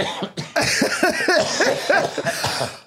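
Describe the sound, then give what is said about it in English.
Loud, sustained coughing from a person who is ill in bed, rough voiced bursts following one another without pause for a few seconds. “I'm trying not to laugh so I don't cough too much.”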